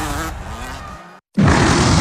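Low, grunting lion roar with a harmonic growl lasting about a second. A brief silence follows, then a sudden burst of loud, dense noise.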